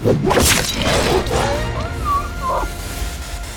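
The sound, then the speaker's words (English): A slashing strike cuts through a wolf's paw in a fantasy battle. A sharp whooshing whack comes first, followed by wavering whistling tones over a dense, noisy background. “He whipped around, slashing the wolf's paw in two.”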